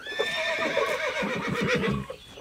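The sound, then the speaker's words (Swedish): Two horses in a paddock whinny cheerfully as a hay bale is tipped in for them. Bright, wavering neighs run through the whole stretch, loud and without talk. “Med ett glatt gnägg böjer sig hästarna fram och börjar mumsa på höet.”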